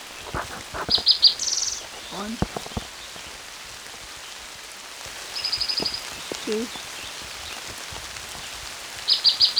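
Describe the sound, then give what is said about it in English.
Hard rain falls on Kinney Creek in Bannock County, Idaho, in June as a steady hiss throughout, with a few bursts of high, rapid bird trills and some lower chirps above it. “It's raining pretty hard.”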